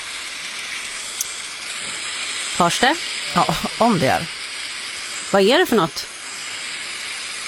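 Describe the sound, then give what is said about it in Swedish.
Hail pours down outside a stable as a steady, dense hiss that runs through the whole recording, while people talk briefly over it. “Det är hagel som vräker ner utanför stallet där jag var igår kväll.”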